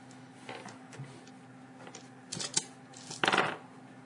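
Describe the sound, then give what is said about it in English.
Dice are thrown during a tabletop roleplaying game, a few light scattered clicks followed by two short bursts of clattering, the last one the loudest rattle before it settles. “And she throws her medicine and brains dice.”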